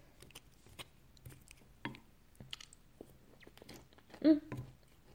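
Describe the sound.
Soft chewing and biting of food during a family meal: faint, irregular mouth sounds with a few slightly louder bites, and no clear talking.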